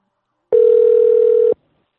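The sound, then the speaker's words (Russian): A single telephone ringback tone sounds as one steady, unbroken beep at a constant pitch. It lasts about a second and then cuts off into silence. “гудок, гудок и сброс”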